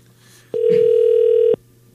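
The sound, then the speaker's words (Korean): A telephone ringback tone while waiting for a call to be answered: one steady, loud tone lasting about a second, starting and stopping abruptly over a faint low hum. “제발 받아주세요. 보이스피싱 아닙니다. 너무 귀한, 너무 중요한 전화예요.”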